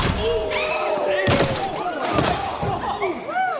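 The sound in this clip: Basketball slam dunk after a player leaps and somersaults in the air: a couple of heavy, sharp slams stand out against busy, continuous noise with high squeaks throughout.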